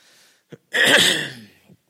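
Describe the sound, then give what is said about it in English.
One throat clearing comes from someone about to begin a talk: a loud, rasping burst lasting under a second, with a few faint clicks and breaths around it. “Well, clear the throat before we get started.”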